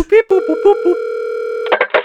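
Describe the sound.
A telephone dial tone holds steady for over a second, preceded by short tone blips, then stops as a voice speaks briefly.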